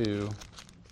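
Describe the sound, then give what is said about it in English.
Pages of a Bible being turned, a short papery crinkle and rustle that follows a brief voiced sound and quickly fades. “Oh, under pressure, I'm terrible at turning the pages here.”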